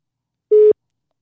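A single short telephone tone sounds while someone dials a call. It is one steady, mid-pitched beep lasting about a fifth of a second, clean and alone.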